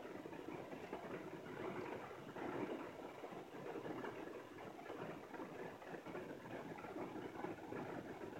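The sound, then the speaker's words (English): Steady rain, a dense continuous hiss with a fine crackling texture that holds at an even loudness throughout, with no voices. “I feel like I should apologize for the rain, but I have no control over that at all”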